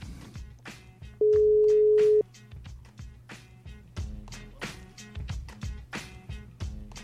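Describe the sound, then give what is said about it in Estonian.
A telephone ringback tone sounds while an outgoing call is placed: one steady, mid-pitched beep lasting about a second, rising clearly above continuous background music. “nii et helistame ikkagi, ma tahaks ikka helistada ka. Äkki võetakse kõne vastu.”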